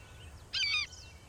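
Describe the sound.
A hawk cries once, a short, harsh, high call, in a film scene where the bird lands on a stump in slow motion. The call is fairly faint and stands alone over a quiet background.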